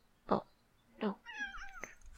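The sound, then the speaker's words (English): A cat gives a couple of short, sharp vocal bursts, then a drawn-out meow that bends in pitch, all fairly faint against a quiet background. “sorry, I'm having some cat issues.”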